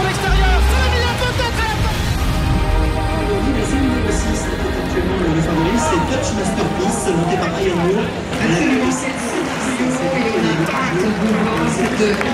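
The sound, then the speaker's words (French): Crowd noise fills packed grandstands before the start of the Prix de l'Arc de Triomphe horse race: a dense, continuous roar of many voices that stays loud throughout, with talk over it. “Voilà, le public s'enflamme parce que le départ de la course va être donné dans pas très longtemps. La ferveur monte, les tribunes sont pleines à craquer.”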